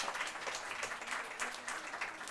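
Faint applause from a group clapping for a person called up by name in a roll of names, a soft, even patter of many hands lasting a couple of seconds.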